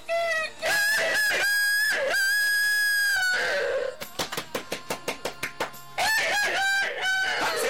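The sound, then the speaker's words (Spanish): A rooster crows in loud, drawn-out harmonic calls, first several in a row, then a quick series of sharp clucks, and finally another crow at the end. “Se oye un gallo cantar.”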